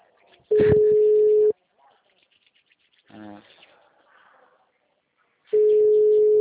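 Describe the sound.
Telephone busy tone from a dialled number: two long, steady, fairly loud low beeps separated by a long pause, with a voice speaking briefly in between.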